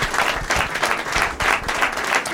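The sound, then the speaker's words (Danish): Audience applause greets the first guest, a nurse, on a Danish talk show: dense, steady clapping from a crowd holding at an even level through the whole short stretch. “Giv en kæmpe stor hånd til en sygeplejerske. Giv en hånd.”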